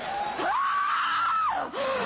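A woman screams during an exorcism: a long, wavering, high cry that rises and then falls, followed after a brief break by a shorter second cry.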